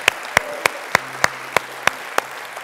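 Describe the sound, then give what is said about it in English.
Rhythmic hand clapping in a church audience: eight sharp, evenly spaced claps at a steady beat over a low hum, then quiet. “I wonder if we could give God a cheer, amen, come on, amen,”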